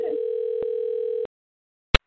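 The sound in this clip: A telephone ringback tone sounds while a call is dialed: a steady, buzzy, slightly warbling tone that stops abruptly partway through, followed after a short silence by one sharp click.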